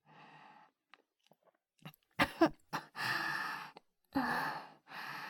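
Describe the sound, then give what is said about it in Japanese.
Choking coughs and gasps from a person overcome by a strong smell: a few sharp bursts, then longer breathy exhales. The sounds are fairly faint and come with gaps between them. “失礼。匂いがあまりにも強いので、むせてしまいました。”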